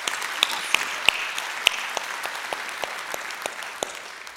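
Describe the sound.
A church audience applauds at a morning service to welcome guests, with steady clapping from many hands and a few sharper individual claps standing out throughout.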